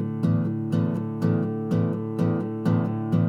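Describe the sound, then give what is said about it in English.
Unmuted guitar strings, the low E, A and sometimes D, struck together about seven times in an even rhythm, each strum ringing out loud and sustained with a clashing, boomy low tone, no voices over it. “If I don't mute and hit all those strings, it sounds weird, like this.”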